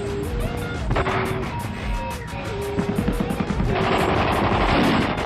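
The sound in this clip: Rapid gunfire from street fighting in Paris, with dense bursts of sharp repeated cracks continuing throughout and growing heavier toward the end over a constant rumbling background.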